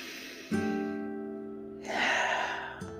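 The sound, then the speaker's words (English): One deep breath in, taken as a calming exercise: a soft, breathy rush that swells for about a second over a steady, sustained background tone. “I implore you to start today with a deep breath. Let's do that again.”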